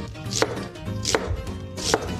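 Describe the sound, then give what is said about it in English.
A knife slices an onion into quarter-inch half-moon strips, giving three crisp, evenly spaced cuts, each with a short crunchy snap. “Then for the onion, just remove the top, gonna cut it in half, and then cut it into 1/4-inch half moons.”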